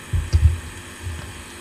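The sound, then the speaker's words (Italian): A steady low hum from the lubrication unit serving a spindle machine, broken by a few dull, throbbing low thumps clustered early on and a softer one later, with no voices. “Quindi questa è l'apparecchiatura di lubrificazione a servizio di quel mandrino, di quella macchina che abbiamo visto prima”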